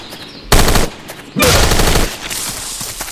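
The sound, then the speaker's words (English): Assault rifle fire in a video game rips out in two loud rapid-fire bursts, the second one longer. A quieter, steady rattle of shooting follows. “18 ammo remaining in this clip, and 3 clips left. There's that. Assault rifle.”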